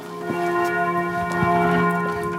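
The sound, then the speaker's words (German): Church bells of a castle and pilgrimage church in Ludwigshafen-Oggersheim, Germany, ring out at noon with sustained, overlapping metallic tones and a few distinct strikes standing out. “Die Glocken der Schloss- und Wallfahrtskirche Maria Himmelfahrt in Ludwigshafen-Oggersheim läuten um 12 Uhr.”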